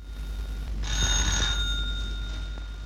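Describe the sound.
A telephone ringing, one bright, steady electronic ring lasting under a second that then fades softly over a low background hum.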